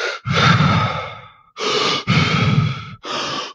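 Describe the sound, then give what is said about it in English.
Deep, rapid hyperventilation breaths from a breathing exercise, heard as a few loud, rushing breaths in quick succession with short gaps between them. No one talks. “Where you hyperventilate, which are not like panicky hyperventilations, but deep, rapid breaths. It would sound something like this.”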